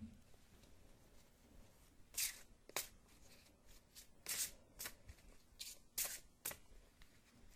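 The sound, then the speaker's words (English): Tarot cards are handled and fanned out from a deck, giving quiet papery rustles and several sharp flicks in irregular bursts over a soft background hiss, with no talking. “For today, though, I'll just be drawing 1 card of my choosing and reflecting on that.”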